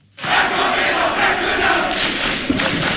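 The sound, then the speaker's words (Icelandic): KA football fans roar in celebration of a 3-0 win over Þór in the Akureyri derby of Iceland's men's top division, about 2000 spectators at KA's home ground. A loud, dense crowd roar starts abruptly and holds steady throughout. “Það ætlaði hreinlega allt koll að keyra þegar KA-menn fögnuðu 3-0 sigri á Þór í Akureyrar slag bestu deildar karla í fótbolta í gærkvöld.”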